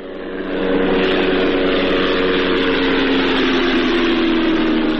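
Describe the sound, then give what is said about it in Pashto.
An unmanned drone aircraft flying over Ghazni province, Afghanistan, gives a steady, loud engine drone with a buzzing tonal hum. It swells in the first half second, then holds constant throughout. “دا د هغه بی پیلوټ الوتکې غږ دی چې پر افغانستان د طالبانو له حاکمیت څخه وروسته هم د غزنی ولایت تر څنګ د پکتیا، پکتیکا او ځینو نورو ولایتونو په هوا کې ګرځي.”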